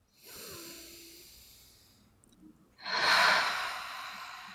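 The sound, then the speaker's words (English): A deep breath taken during a guided self-acceptance tapping exercise: a long, soft inhale followed after a short pause by a louder, breathy exhale, with no talking. “Deep breath.”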